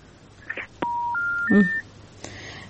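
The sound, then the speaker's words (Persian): Phone call disconnecting with an electronic tone sequence: three steady beeps stepping upward in pitch, one after another, preceded by a couple of faint clicks and followed by a brief click. “بازم تماس از اینا قطع شد.”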